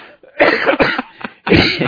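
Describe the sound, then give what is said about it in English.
Coughing from a person who has taken about half a dozen cough drops. A few harsh, rasping coughs come in quick, uneven bursts, loud and alone with no talk. “the last thing we're going to talk about before I cough my head off, and I've had like a half a dozen cough drops”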